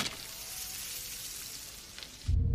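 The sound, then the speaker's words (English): A steak sizzles on a grill, giving a steady, bright hiss that holds at an even level before a louder low burst at the very end. “throws a steak on the grill.”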